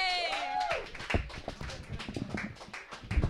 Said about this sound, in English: Put your hands together for Haywood Trinup C. Jr., everybody.